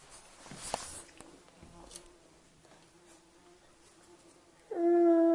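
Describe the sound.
A large insect buzzes as it flies around, giving a faint, low, steady drone that wavers over several seconds.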